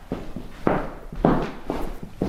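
Footsteps walk slowly through the historic house of painter Otto Ubbelohde, whose interior is nearly unchanged. A steady series of several muffled steps sounds over a quiet background, each step distinct and moderately loud.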